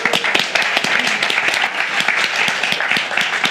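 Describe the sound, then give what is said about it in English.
An audience gives a round of applause for a speaker at a talk, many hands clapping together in a bright, busy stream with some sharper individual claps standing out. “All right, with that, round of applause for Alex.”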